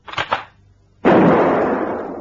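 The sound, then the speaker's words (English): Two quick sharp cracks from a spring-powered rifle fired at pegs on a laundry line, close together, followed by a long, loud, steady rushing noise. “Look, I think I've got this rifle to work all right now. Watch this.”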